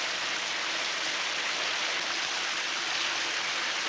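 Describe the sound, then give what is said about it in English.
Water runs from a generous shower in a bathroom with a translucent curtain. It makes a steady, dense hiss of spray that stays constant throughout, with no voices. “Her wet hair mats down against her head as she shuts her eyes under the shower's generous flow.”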